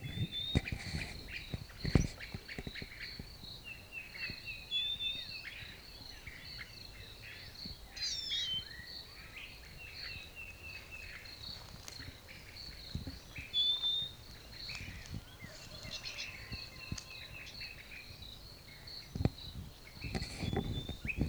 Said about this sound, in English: Stop. Same bird. Stop.